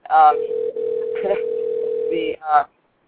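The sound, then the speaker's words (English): A telephone dialing tone: one steady, low-pitched tone holds for about two seconds, with brief speech just before and after it. “Ooh, it's dialing.”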